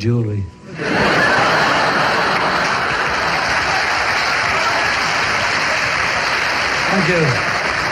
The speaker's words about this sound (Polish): Ci, którzy siedzą na tańszych miejscach, niech klaszczą, a reszta niech pogrzechocze biżuterią.